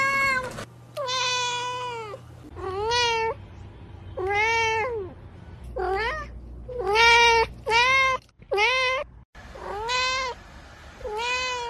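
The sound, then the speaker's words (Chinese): A cat meows repeatedly with medium-long, drawn-out calls that rise and bend in pitch. Many separate meows come in a steady series with short pauses between them. “常见的猫叫声，例如一般的喵喵叫，可能是为了吸引注意力，表达需求。这又可以分为几种，第一，中长声的喵嗷叫，”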